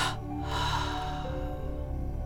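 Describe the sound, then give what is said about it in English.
A deep breath exhaled slowly during a relaxation breathing exercise: a steady, breathy rush of air that carries through the whole stretch at an even level. “One more time. Inhale, tense and vibrate, and exhale and release.”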